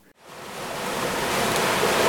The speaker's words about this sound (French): Nous sommes toujours en mer, à bord du catamaran We Explore.